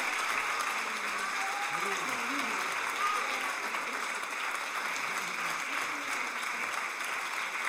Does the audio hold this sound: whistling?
no